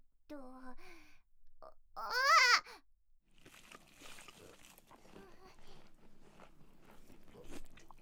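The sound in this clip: Fried shrimp picked up off the floor is bitten and chewed, with crunchy munching sounds after a couple of short vocal exclamations, the chewing noises continuing unevenly at a moderate level.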